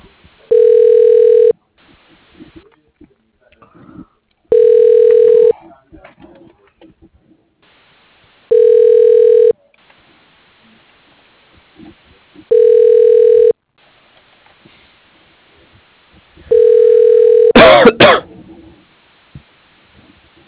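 Ringing tone of a telephone call being transferred: five long, even, steady tone bursts evenly spaced about four seconds apart with quiet gaps between them, the last one broken by a brief crackling burst of noise.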